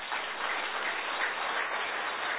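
Audience applause follows a completed session at a seminar, a dense, even wash of clapping that stays at a constant level throughout and sounds dull and muffled.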